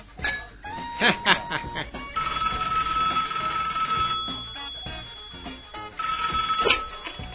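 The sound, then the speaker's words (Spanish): A telephone rings with an incoming call, a bright bell-like electronic ring heard in two long sustained bursts separated by a pause, fairly loud and without talk. “Ay, tengo otra llamada.”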